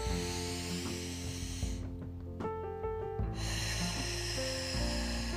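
Deep breath exhaled through the nose during a guided breathing exercise, a long, loud airy rush over steady background music that briefly thins out midway.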